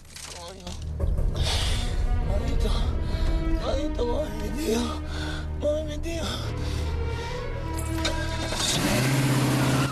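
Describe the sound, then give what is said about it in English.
A car engine revs loudly as the car reverses up a street, its sound surging in uneven bursts while excited voices carry over it. “He reverses up the street to Roselli's car.”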